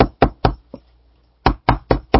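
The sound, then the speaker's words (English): Knocking on a door, acted out by a preacher telling a sermon story: four sharp, loud knocks, a pause of about half a second, then four more at the same even pace. “Well, he kept on knocking.”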